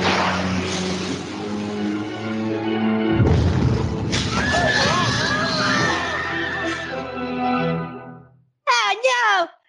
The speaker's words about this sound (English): The SeaPeople on Tweak's side just suicide bombed the Cartman statue! Oh, goddammit!